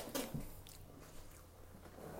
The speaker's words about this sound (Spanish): comiendo vegetalitos